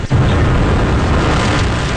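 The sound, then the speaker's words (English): The SpaceX Starship rocket lifts off its launch pad in Texas with a deep, continuous roar, a loud, dense rumble that holds steady throughout after a brief dip at the start. “The enormous Starship rumbled off its pad in Texas.”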